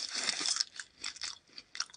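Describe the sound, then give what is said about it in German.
Crisp crunching as berries are eaten in a video game, a few quick chewing bursts separated by short gaps, fairly faint. “Kurz ASMR. Ähm, Beeren, die man essen kann, die gibt es sogar hier sehr, sehr viel.”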